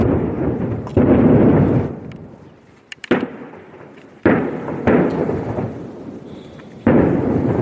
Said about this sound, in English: This was video shot in the southern Lebanese town of Marjayoun, capturing the sound of rockets thought to have been fired from Lebanon into Israel.